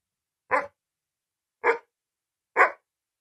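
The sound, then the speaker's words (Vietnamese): A white-furred, blue-eyed dog barks loudly through a room, three sharp separate barks spaced about a second apart, each short and full-bodied, with silence between and no talk. “Tiếng chó bất ngờ sủa vang khắp phòng, làm ngắt ngang câu hỏi của tôi.”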